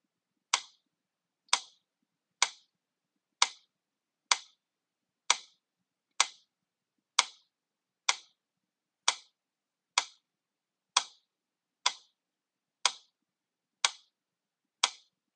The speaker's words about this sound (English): I'm sure many of you are familiar, but may not know that the device I just played for you is a metronome.